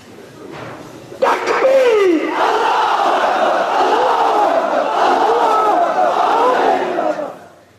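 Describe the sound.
A crowd at a rally shouts slogans in unison, a loud, sustained chorus of voices that bursts in after a quieter opening, holds for about six seconds, then drops away.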